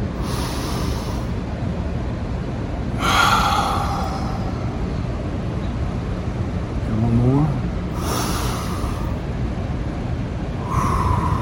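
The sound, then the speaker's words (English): Big, deep inhales taken during a guided relaxation, slow and airy breaths drawn in a few times over steady background noise. “let's take a big deep inhale. Let's take another one.”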